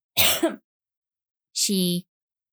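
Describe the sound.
A woman clears her throat twice: first a rough, breathy rasp, then, after a silent pause, a short voiced grunt with a hummed tone. Both are fairly loud against silence.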